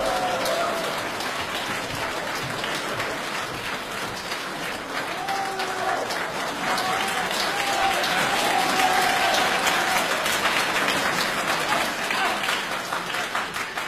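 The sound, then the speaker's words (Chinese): Sustained audience applause welcomes two crosstalk comedians onto a stage. The dense, even clapping runs unbroken throughout, with faint voices rising within it midway. “掌声欢迎”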